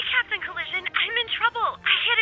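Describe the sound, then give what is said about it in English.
A telephone rings at a collision repair shop, sounding as a few loud, warbling electronic trills separated by short gaps. “Aha, the phone!”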